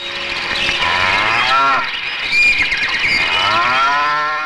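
Cow mooing in a village, a loud, drawn-out, tonal moo that swells and wavers in pitch, with a brief dip midway before the call resumes and trails off, heard alone.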